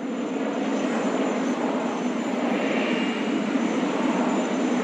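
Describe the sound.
Aircraft engines roar on an airport apron: a loud, steady, unbroken drone with a thin whine running on top, holding an even level with no pauses.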